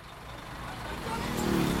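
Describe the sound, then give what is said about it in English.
Busy street traffic in Siam Square, Bangkok's crowded shopping district, with motorcycles and buses whizzing past: a dense, steady roar of engines and road hiss that swells louder toward the end. “Motorcycles and buses go whizzing by.”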